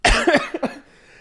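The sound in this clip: A person coughing up mucus: one harsh, throaty cough, then two short, hacking bursts, followed by near silence.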